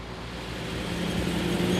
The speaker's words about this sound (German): Punkt 16 Uhr macht sich die qualmende Karawane auf nach Anklam. 12 Kilometer Strecke.